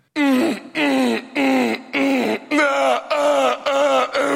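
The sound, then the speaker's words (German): A voice imitates a neighbour's loud sex moaning: a rhythmic series of drawn-out, high-pitched moans separated by brief pauses, steady in loudness throughout. “Der f***t jeden Abend sehr laut. Wirklich, das hört sich jeden Abend so an bei mir.”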